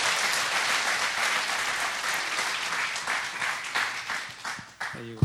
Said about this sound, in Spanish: Un aplauso, por favor.